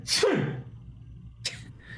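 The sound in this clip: A voice imitates a man's sneeze: one sharp, breathy burst that drops in pitch, followed after a pause by a short hissing exhale, fairly quiet with nothing else around it.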